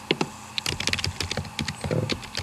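Keystrokes on a Mac keyboard as a new e-mail is typed: many rapid, irregular clicks and taps in quick bursts, with brief pauses between runs.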